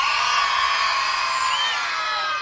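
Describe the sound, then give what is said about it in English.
A crowd of fans in Bridgewater screams in response at a live show, a dense and sustained wall of shrill voices that holds steady from start to finish. “Scream if you think I'm brilliant. Scream if you think I'm brilliant.”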